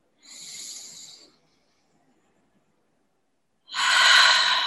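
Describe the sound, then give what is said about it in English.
One deep breath in, heard as a soft airy hiss lasting about a second, is followed after a pause of silence by a bigger, louder exhale that rushes out steadily. “And take a deep breath in. Big exhale. One more.”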